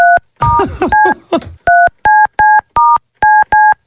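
DTMF keypad tones from a phone dialing to call someone back: a quick series of short, evenly spaced two-tone beeps, the first few tangled in a burst of rustling noise, the rest clean and loud.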